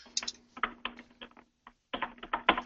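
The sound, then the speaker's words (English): Typing on a computer keyboard: many quick, irregular keystroke clicks in short bursts, with a brief pause midway, over a faint steady hum. “You got to learn to type a little better here.”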